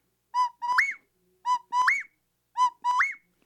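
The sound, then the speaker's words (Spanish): A bird's territorial call, given to mark territory and attract females, sounds three times in a steady pattern: a short clear whistled note, then a longer slurred whistle that rises in pitch, each phrase standing alone against silence. “Entonces esta ave, cuando uno anda en campo, a veces estamos escuchando dos o tres o cuatro sonidos, pero es marca de territorio y a la vez para que llamen a las hembras.”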